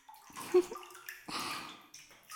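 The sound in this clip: Hot bath water splashing and sloshing in a bathtub: a few soft, brief splashes with a gentle watery wash between them, fairly quiet, with no talking.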